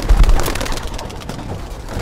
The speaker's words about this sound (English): Larry Daugherty has opened a wire mesh window, and one by one, the birds burst through and take off into the sky.